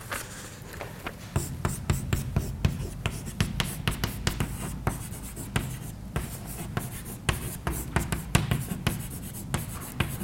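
Writing on a board during a physics lecture on electromagnetism: many quick, scratchy strokes and taps in an irregular rhythm, with no talking over them.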